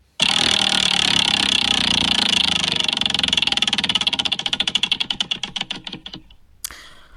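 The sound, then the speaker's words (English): A prize wheel spinning, its pointer clicking in a fast, dense rattle that gradually slows into distinct, widening ticks before stopping, followed by a brief extra sound. “Well, in that case, spin the wheel and let's see what's what.”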